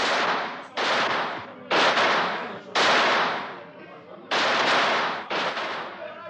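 Six loud gunshots, fired to keep people away from a boat, come at an uneven pace. Each shot is a hard, sharp crack that trails off before the next one.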